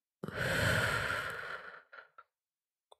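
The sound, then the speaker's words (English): A single deep breath in and out, a long audible exhale like a heavy sigh, trailing off into a couple of short, soft breathy puffs and a faint click, heard alone without talk. “Okay, deep breath in and out.”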